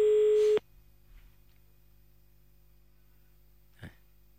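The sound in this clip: A telephone tone sounds as a call is cut off: one loud, steady electronic tone with bright overtones fills the first half second and stops abruptly. Near silence follows, broken by a faint brief click and a short noise burst near the end.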